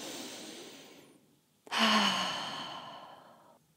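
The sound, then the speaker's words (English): A big, deep breath: a soft, airy intake followed by a loud, long sighing exhale that slowly fades. No voices. “We close our eyes and take a big, deep breath.”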